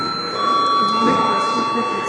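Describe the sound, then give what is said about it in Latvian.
A steady electric bell rings throughout a parliament session in the Saeima chamber, one continuous high buzzing tone held without a break, with a faint murmur of voices underneath. “Lūdzu zvanu.”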